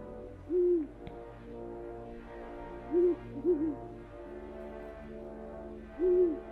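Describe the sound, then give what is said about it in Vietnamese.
Owls hoot at night over a cold, wild field: four short, low, wavering hoots a few seconds apart, the third a quick double call, over a steady low hum. “Tiếng cú mèo lúc xa lúc gần như vọng về từ một cõi hư vô lắm.”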